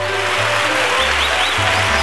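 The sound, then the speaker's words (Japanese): A crowd cheering at a school sports test after a record in side-step jumping, a loud, continuous roar of voices over a low, stepping bass tone. “うわ、何の歓声じゃい。”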